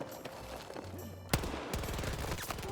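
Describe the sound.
Gunfire from a weapon fired from the hip in a first-person shooter video game: one sharp loud shot, then a fast, steady automatic burst of many rapid shots over constant game background noise.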